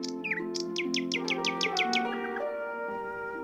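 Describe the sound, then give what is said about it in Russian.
Nightingale song trills: a rapid run of repeated, sweeping high notes fired in quick succession, then easing off, heard over sustained steady instrumental tones. “пел соловей серенады влюбленно. Ночью его восхищенные трели нежно звучали, как звуки свирели.”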